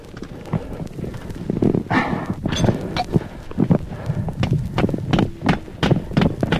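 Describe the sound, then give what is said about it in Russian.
Metal hammer blows drive a titanium piton into a rock crack during a climb: a series of sharp, irregular knocks, some ringing briefly, repeating many times. “Сейчас придется забить крюк и навесить специальную лестницу.”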